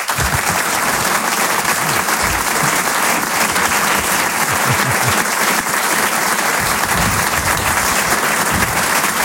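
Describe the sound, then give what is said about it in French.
Sustained audience applause for a comedian taking the stage at a comedy show: a dense, steady clatter of many hands clapping that holds at an even, loud level for the whole stretch. “Je vous demande une ovation, s'il vous plaît, pour Selig.”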